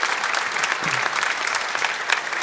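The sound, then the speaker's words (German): Studio audience applause in Munich, a dense, steady wash of clapping that holds at an even level throughout, with no talk over it. “den wir aus München mit einem freundlichen Applaus und einem schönen guten Morgen begrüßen”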